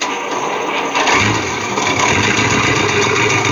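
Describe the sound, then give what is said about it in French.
Engine of an American M24 Chaffee tank from the Second World War, a model whose production began in 1944, gives a steady, loud mechanical rumble that grows slightly heavier after the first second and holds level to the end. “Donc, il s'agit là d'un char américain Chaffee & Wendlandt. Donc, la production a démarré en 1944.”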